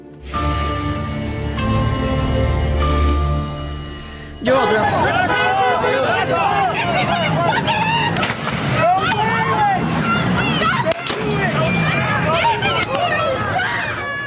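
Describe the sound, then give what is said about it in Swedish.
A street protest crowd in Los Angeles against ICE immigration raids: a steady humming drone gives way to a continuous, loud hubbub of shouting voices, with the rumble of passing vehicles underneath. “Dramatiska scener i Los Angeles, hör ni här, där protesterna nu går in på 4:e dygnet och som riktas mot migrationsmyndigheterna ICE och deras räder i framförallt latinodominerade områden.”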